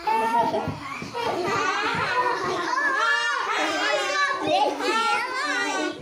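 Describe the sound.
Children playing a game of Indians: many overlapping high-pitched young voices chattering, calling and laughing, a busy and continuous babble that stays fairly loud throughout.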